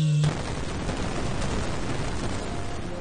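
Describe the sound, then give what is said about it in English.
A voice imitates a howitzer firing during a tabletop role-playing game: a loud, noisy blast that starts abruptly and holds steady like a sustained burst of gunfire to the end. “So just like his first shot with the howitzer, I just see like the howitzer again just go...”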